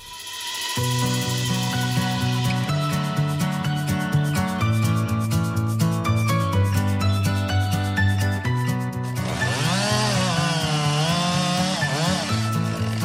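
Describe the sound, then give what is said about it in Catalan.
A chainsaw clearing brush in a forest for fire prevention: a loud, continuous buzzing engine drone that stays steady for most of the run, then revs up and down in pitch near the end, with no voices. “I aquest és el so d'una motoserra desbrossant un bosc, una activitat imprescindible per contribuir a la prevenció d'incendis.”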